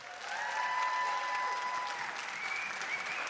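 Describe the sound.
An audience applauds to welcome a guest speaker, a dense, steady wash of clapping that holds at a strong level throughout.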